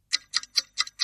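A clock ticks five times in a steady, quick rhythm, each tick a crisp, bright click with a faint double edge.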